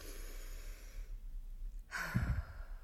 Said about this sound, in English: Big breath.